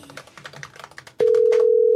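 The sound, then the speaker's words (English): Ringback tone of an outgoing telephone call. A loud, steady low tone starts abruptly after a run of quick clicking taps and holds unbroken to the end. “I don't know why it's just ringing. Maybe he changed his phone number recently.”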